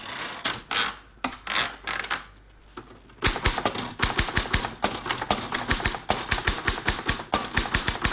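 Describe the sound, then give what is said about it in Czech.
Typewriter keys clack rapidly in sharp bursts, then fall quiet briefly before a long run of dense, fast keystrokes that continues to the end. “Byl to skutečně psací stroj? Byl to psací stroj.”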